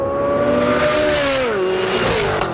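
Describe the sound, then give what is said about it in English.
Car engine roars during a high-speed racing demonstration at the General Motors proving ground in Milford, Michigan. A loud, steady, whining drone holds throughout, and its pitch slides lower about midway. “At the General Motors Proving Grounds in Milford, Michigan, President Trump took in high-speed racing demonstrations.”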